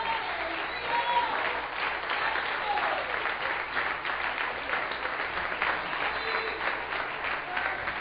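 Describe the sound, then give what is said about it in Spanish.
An audience applauds during a church sermon, a continuous, even wash of clapping lasting the whole stretch with faint voices mixed in. “Dale un aplauso a Cristo, que Él se lo merece.”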